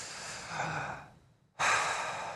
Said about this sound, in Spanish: Sale el aire por la boca llevando el aire hasta su vientre.